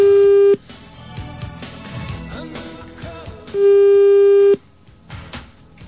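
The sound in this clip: A telephone busy signal sounds on a call to a water-heater repair shop. Two steady, low, loud tones, the second lasting about a second, are separated by quieter clutter.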